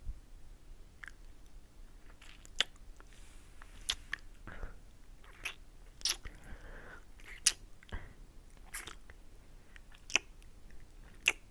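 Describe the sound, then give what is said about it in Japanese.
Ear nibbling and chewing mouth sounds: many faint, wet smacks, sharp little clicks and soft squishes in an irregular rhythm, with no talk. “こっちの耳も食べるよ。”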